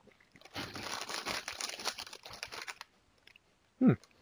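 Wrapper crinkling and crunching as a wasabi-flavored puff snack is popped open: a dense rustle lasting about two seconds, then a pause and one short, low thump.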